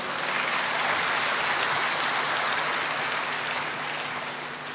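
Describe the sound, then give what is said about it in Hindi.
Audience applause welcoming a guest at a gathering, dense and steady clapping throughout that eases slightly toward the end. “हम सब उनकी करतल ध्वनि से स्वागत करेंगे”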